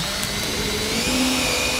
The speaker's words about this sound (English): It's the sound of businesses boarding up windows.